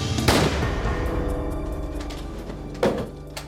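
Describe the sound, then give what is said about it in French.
Two sharp gunshot bangs, one near the start and one near the end, over a steady droning backdrop, from an execution-style killing in which the victim is shot in the back of the neck. “On lui tira une balle dans la nuque.”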